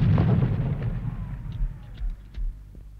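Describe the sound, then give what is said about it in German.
Artillery cannon fire: a heavy, rumbling boom that slowly decays, followed by a few softer, muffled thuds. No voices are heard. “Was ist das? Artillerie. Kanonen.”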